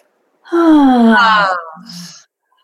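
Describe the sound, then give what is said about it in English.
A deep relaxation breath let out through the mouth as a loud, voiced sigh. Its pitch falls steadily, then it trails off into a softer, breathy tail. “take three deep breaths in through their nose and out through their mouth like this. And when you exhale, you actually make a noise.”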